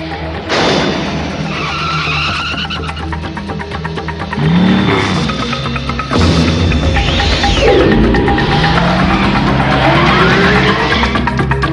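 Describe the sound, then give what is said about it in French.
A futuristic motorcycle from a 1980s anime roars and skids, its loud engine broken by a few squealing tire slides and surges of revving. “cet extrait sonore pour vous parler du premier véhicule du futur au sein d'un animé très célèbre des années”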